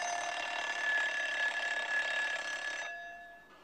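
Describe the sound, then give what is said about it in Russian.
An alarm clock rings in an apartment with a continuous, bright, rattling ring that holds steady for about three seconds, then cuts off and leaves a short fading tail. “В квартире звонит будильник.”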